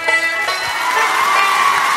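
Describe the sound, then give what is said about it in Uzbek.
An audience cheers and claps, a loud, continuous wash of crowd noise with shouted voices on top. “muxlislarimiz qarsaklari bilan qani ketdik, marhamat.”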